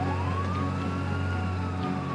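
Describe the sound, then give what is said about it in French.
Siren of an arriving emergency rescue vehicle: a loud, high wail that rises briefly at the start, then holds a steady pitch over a low continuous hum. “Les secours finissent par arriver. Direction l'hôpital.”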